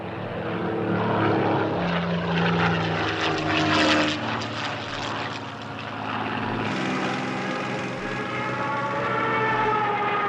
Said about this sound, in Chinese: 第六中队起飞了。